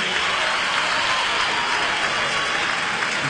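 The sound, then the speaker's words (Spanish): Audience applause at a rock concert at the Cosquín Rock festival: a continuous, even wash of many hands clapping at steady loudness throughout. “Fuerte el aplauso, por favor, Tours, carajo.”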